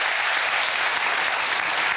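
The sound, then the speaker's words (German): A game show studio audience applauding the winner, dense rapid clapping at an even level throughout, with no voices rising above it. “So, jetzt gibt es noch mal einen Applaus für die Gewinnerin und dann gehen wir rüber zum Jackpot.”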